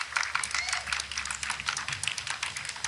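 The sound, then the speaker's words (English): Sparse clapping from roughly four people at a reception for a president, thin irregular claps with gaps between them, moderately loud and without any crowd swell. “Okay, now you're hearing like four people clapping.”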